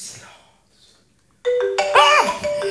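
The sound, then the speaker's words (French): A phone ringtone cuts in abruptly after near silence, playing a loud, bright melodic pattern of repeated tones. “Ah, ça sonne. Ah, vous m'avez... Excusez-moi, je décroche parce que moi, c'est important.”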